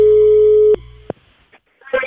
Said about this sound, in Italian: È caduta la linea!